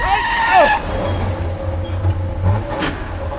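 A car accelerates and swerves: tyres squeal in a brief, sweeping screech at the start, and a low, steady engine drone follows beneath.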